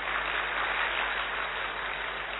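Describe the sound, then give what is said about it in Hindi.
Audience applause at a Hindi spiritual discourse: continuous, evenly dense clapping that holds steady throughout, with a slightly dull, muffled tone and no talk on top. “तालियां तो बजाओ जरा।”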